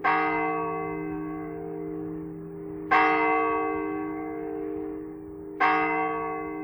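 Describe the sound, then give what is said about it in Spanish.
A church clock bell strikes the hour with three loud, resonant tolls at even intervals. Each toll rings on with a long humming decay that fades before the next strike. “Las 9. Nos llegan las campanadas del reloj de la iglesia más cercana.”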